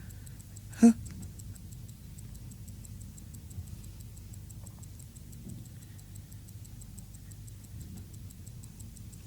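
Clock ticking in a radio drama, faint, regular ticks running steadily throughout, with one sharp, louder click near the start.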